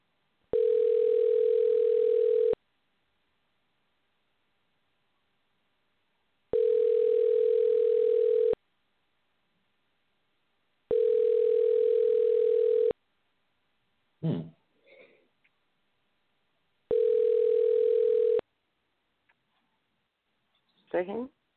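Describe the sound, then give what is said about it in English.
A telephone ringing tone on an incoming call, heard as four long, steady mid-pitched beeps of about two seconds each. The beeps are separated by silent gaps, and a couple of brief noises fall in the gaps near the end. “I hear the call coming in.”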